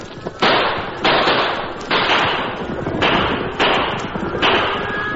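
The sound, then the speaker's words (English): Gunshots fired over a stampeding cattle herd to turn it back onto the trail: several loud, booming blasts spaced about a second apart, each with a long noisy tail that runs into the next. “Keep shooting.”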